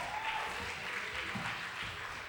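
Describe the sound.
An audience at an opening worship service applauds to welcome the Friday night band. The clapping is faint and steady and forms an even wash for the whole short stretch.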